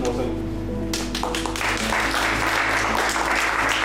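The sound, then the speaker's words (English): Applause for a standout player after a team's hard-fought match: a dense, steady wash of clapping swells in after about a second and keeps going at full loudness to the end. “But I want a big applause for Boshan.”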